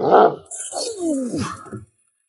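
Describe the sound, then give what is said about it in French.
A human voice imitates the terrible growl of a big bad wolf, a drawn-out, wavering snarl that slides downward in pitch after a short breathy burst, then drops into silence. “Le méchant loup sauta sur ses pattes et avec un grognement terrible”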